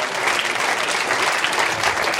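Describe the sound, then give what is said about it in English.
Church audience clapping during a worship service: dense, steady applause from many hands, sustained evenly through the whole stretch. “Come on, let's clap the Lord.”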